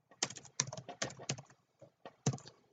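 Typing on a computer keyboard while writing code, heard as quick clusters of crisp key clicks separated by short pauses, with no talking over them.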